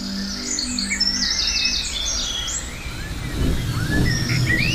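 Recently fledged falcon chicks calling in a valley: many high, thin chirping calls in rapid, overlapping series, with a low rumbling noise rising beneath them in the second half.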